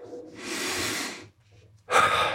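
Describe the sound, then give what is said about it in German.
Deep breathing used to calm stress: one long, airy breath swells and fades, then after a brief pause a second strong breath begins, with no talk. “Also, nach dem Abstand nehmen vom Problem, erstmal atmen.”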